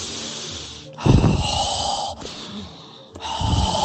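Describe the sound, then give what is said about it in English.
A man imitates deep, heavy breathing: a few long, rough breaths in and out with a snorting, gasping texture, loud and alone with no speech. “And I noticed my dad used to breathe really deep and very heavy.”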